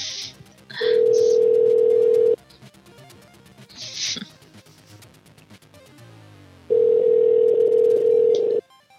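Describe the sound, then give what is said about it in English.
Telephone dial tone on a call that fails to dial: two long, steady mid-pitched tones, separated by a stretch of short clicks and noise bursts, with the tone cutting off abruptly each time. “It's not dialing for some reason. Let's try that again.”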